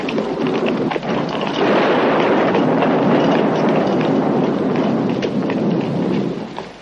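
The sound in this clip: A thunderstorm with lightning, with heavy rain roaring steadily and deep thunder rumbling continuously underneath, loud and unbroken throughout.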